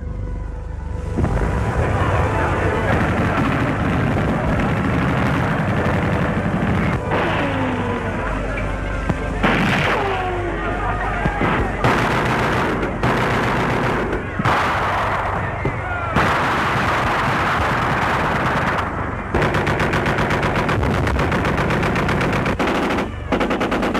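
German gunfire rattles through the streets near the Paris town hall, the Hôtel de Ville, with many loud shots and machine-gun bursts over a continuous rumbling din that persists throughout.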